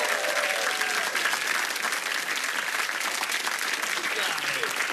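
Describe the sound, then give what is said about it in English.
Dense, steady audience applause greets an audience member as they are welcomed onto the stage at a live show. The clapping stays loud and continuous for the whole stretch. “Can we welcome to the stage CJ? Here we go. Give it up for CJ.”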